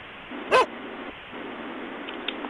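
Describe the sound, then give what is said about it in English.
A dog gives one sharp, loud bark over a steady background hiss, followed by a couple of faint yips. “These dogs won't stop barking.”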